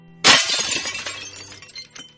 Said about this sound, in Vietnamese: Chưa dứt câu thì xoảng một cái, một cái chén đập thẳng vào đầu kẻ vừa mới nói vỡ toang thành nhiều mảnh